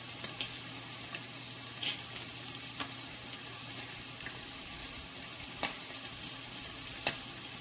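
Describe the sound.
Fish sizzles in a pan on an electric stove with the heating element turned off, a faint, steady frying hiss broken by several sharp, brief clicks.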